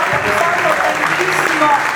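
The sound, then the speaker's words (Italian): An audience applauds a guest on an Italian program. Loud, dense clapping runs evenly from start to finish without a break. “un applauso a Emanuele Bertoli”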